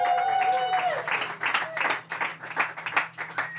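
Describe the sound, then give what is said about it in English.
An audience at a stand-up comedy show in Edinburgh applauding a performer's introduction, dense sustained clapping that thins out in uneven waves, with a voice speaking over the start. “Put your hands together, everybody, for Dan Simpson!”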